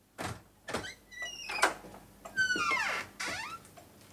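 Squeaky creaks from a door being closed quietly: a few high, drawn-out squeals with sliding tones, broken by soft knocks and rubbing, then a longer run of creaks. No voices.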